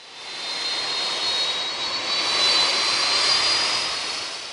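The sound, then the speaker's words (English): A DC-10 jumbo jet flies as a firefighting air tanker over a Sierra wildfire. Its loud jet roar swells steadily to a peak, with a thin high whine riding on top, then eases off slightly. “DC-10 jumbo jets, the kind of passenger airliners you might once have ridden to London. They swoop down at strategic moments over the firefighters on the ground.”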